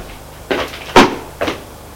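Knocking on an office door before it opens: three short, sharp raps about half a second apart, with the middle one loudest and a soft hollow ring after each.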